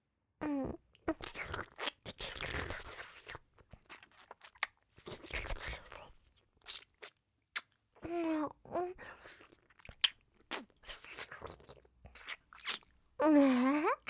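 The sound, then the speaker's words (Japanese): Wet tongue licking sweat off skin comes in irregular bursts of slurping, smacking mouth sounds, separated by short pauses, with a few brief voiced murmurs in between. “綺麗に舐めとってあげる”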